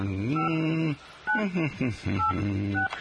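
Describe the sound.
Telephone keypad dialing tones ring out as a few loud, steady beeps separated by short gaps, each with a buzzy, voice-like quality.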